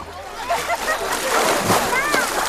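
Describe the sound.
Water splashing and sloshing at an outdoor bathing spot in the Rhön during midsummer, mixed with people talking and calling out, with a louder surge of splashing midway.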